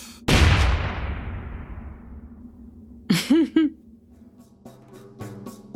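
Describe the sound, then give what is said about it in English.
A single loud explosion bursts near the start, then its rumble slowly fades over a couple of seconds. Quieter, unrelated tonal sounds follow later. “If you hear an explosion in the background, just let's just keep walking.”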